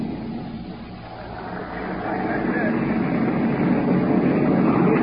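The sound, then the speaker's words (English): A German warplane flies low over a ship during a 1944 D-Day attack. A broad engine roar grows louder after about two seconds and holds steady and strong to the end. “Now planes are going overhead. That baby was plenty low.”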